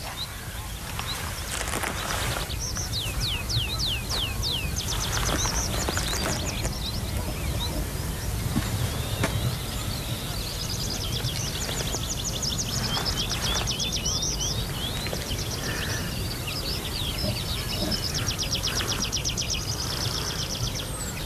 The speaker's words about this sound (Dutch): Oh, hier zit hij voor ons. Ja, de boompieper.